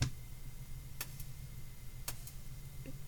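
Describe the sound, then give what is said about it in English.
A plain clock ticks softly over a low hum, with two clear tick-tock pairs spaced about a second apart. “Let's unplug it. And let's go back into, that's just regular old clock. I want wonky clock.”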